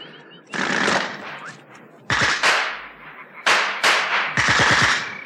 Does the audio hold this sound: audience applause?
no